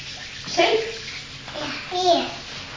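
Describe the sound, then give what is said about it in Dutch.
Water sloshes and splashes softly during washing in a bath, under a child's voice babbling and chattering in a few short bursts. “Lekker is dat wassen. Lekker is dat wassen, hè? Voelt me zo vies. Lekker armpjes wassen onder mijn armpjes. Oortjes wassen.”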